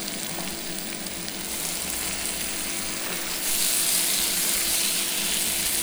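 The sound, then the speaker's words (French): Onions frying in melted butter in a pan give a steady crackling sizzle that runs throughout and grows louder and brighter partway through. “Quand le beurre est fondu, on y met les oignons.”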